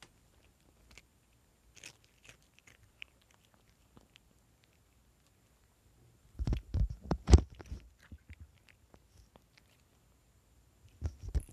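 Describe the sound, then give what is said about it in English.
A cat munches crackers: faint scattered clicks, then a dense run of crisp crunching lasting about two seconds, and a brief final crunch near the end. “We also have a cat. Yeah, when I hear the cat munch some crackers.”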